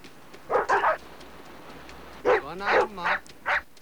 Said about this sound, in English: White Fang growls as he walks towards two dogs barking at him from the other side of a fire